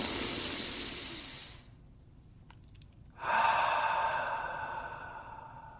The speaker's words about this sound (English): I take a deep breath in through my nose.